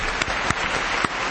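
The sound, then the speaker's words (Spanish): Short applause sound effect with dense, even clapping and a few sharper claps popping out, sounding slightly muffled and thin at the top. “Fuertes aplausos si lo tienen a mano, si no, estiro hasta que aparezca el público en este.”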